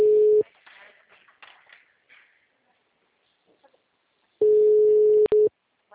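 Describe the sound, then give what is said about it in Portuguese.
A telephone busy signal, a steady low electronic tone, is cut off at the start and returns later as a roughly one-second burst with a tiny break. Faint, talk-like sounds fill the quieter stretch between the tones. “Espera essa ligação aqui acabar. O número está ocupado.”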